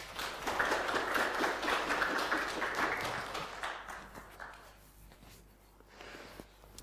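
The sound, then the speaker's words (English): Audience applause as two people come forward to the front: dense, steady clapping for about four seconds that then thins into scattered claps and fades. “Let's give them a hand as they come forward.”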